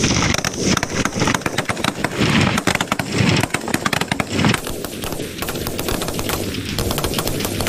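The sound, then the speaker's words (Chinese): Rifles firing rapidly in a precision rapid-fire shooting contest between military squads, dense bursts of sharp cracking shots overlapping in quick irregular succession, loud and continuous throughout. “接下来要进行的就是步枪精度速射的对决，此时枪王群体四连已经做好了射击准备。 速射准备 开始射击”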